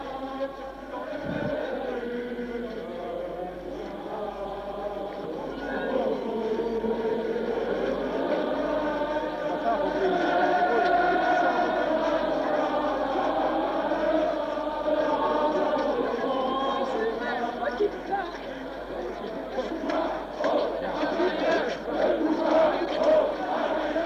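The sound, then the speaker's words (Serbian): Demonstrators at a street march with red and black flags: continuous loud crowd noise throughout, with voices merging into sustained chant-like tones. “Manifestanti vas pozdravljaju aplauzom, parolama i pevanjem internacionale.”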